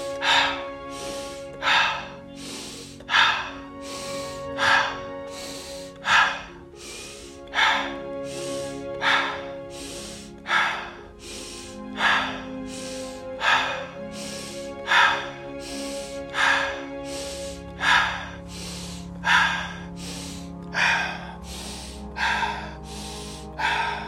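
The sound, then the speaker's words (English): Slow, guided breathing, in through the nose and out through the mouth, for a sleep relaxation exercise. Many regular breaths repeat every second or two over soft, sustained musical tones. “Inhale, nose. Exhale, mouth.”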